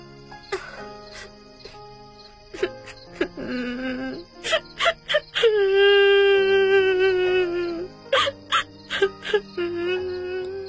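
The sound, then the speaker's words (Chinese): A man sobs and wails in anguish, head rolling on his arms and shoulders heaving, in a run of short choked bursts and a long drawn-out moaning cry, then more quick sobs. “韩章哭了起来，头在胳膊上滚动，身子拧动着，双肩剧烈的抽动”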